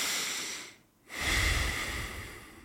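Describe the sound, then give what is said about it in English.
Breath drawn in and let out through the nose during a calm breathing exercise, a soft airy rush that dips briefly to near silence before a fuller, louder exhale, with no talk. “you want to breathe in through your nose. Just your nose and then out through your nose.”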